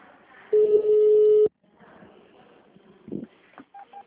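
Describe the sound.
A telephone ringing tone plays after a call is placed to a hospital's phone line: one steady, low-pitched tone lasting about a second, then quieter sounds and a few short beeps near the end.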